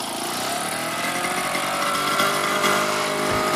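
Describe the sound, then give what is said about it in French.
A small engine of an old, well-used Solex moped runs steadily, giving a continuous buzzing drone much like a lawn mower, with a fairly even level throughout and no voices. “Oui, c'est pas bien nerveux. Hein. C'est une tondeuse. Notre vélo Solex n'est pas neuf.”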